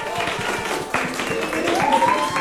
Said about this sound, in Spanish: correcta, así que el aplauso.